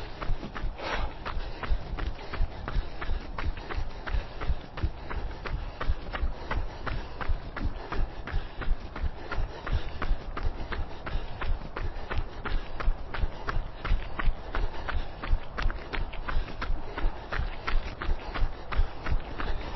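Footsteps of someone jogging: many quick, evenly spaced footfalls in a steady rhythm that continues for the whole stretch, fairly faint and muffled.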